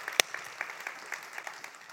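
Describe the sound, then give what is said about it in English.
Scattered hand claps come from a listening audience: one sharp, loud clap near the start, then a string of faint, uneven claps spread across the rest. “That might be a premature clap because I don't know if you know what you're talking about.”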